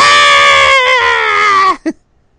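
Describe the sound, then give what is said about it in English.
A ringtone of a woman screaming: a loud, high, sustained shriek with strong harmonics that holds for nearly two seconds, then cuts off, followed by a short, fainter yelp. “I used to have a ringtone of a woman screaming like,”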